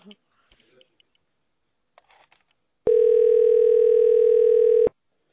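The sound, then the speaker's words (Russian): A telephone ringback tone while calling someone: one steady, mid-pitched continuous beep lasting about two seconds, preceded by a few faint clicks and rustles. “Ну я тебе звоню, возьми трубку-то.”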